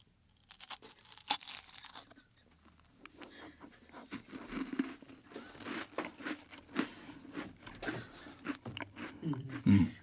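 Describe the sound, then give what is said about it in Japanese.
Crispy Lumonde biscuits being chewed: loud, irregular crunching and crackling bites with wet munching, running densely through the whole stretch. “俺ただルマンド食ってるだけなんだけどさ、うん、ただいっぱいルマンドいっぱい食べて美味しい”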